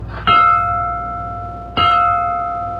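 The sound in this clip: A bell is struck twice, each a loud metallic clang followed by a long, bright ring that slowly decays, the second strike landing before the first has died away.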